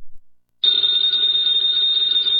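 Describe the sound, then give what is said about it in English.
A telephone bell rings in an old-time radio drama, starting abruptly after a short silence and holding a loud, steady, high-pitched ring with no pause. “that phone bell means adventure.”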